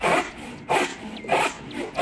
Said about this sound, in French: C'est ouf, une scie. Ouais, c'est une scie. C'est une scie à bois, oui.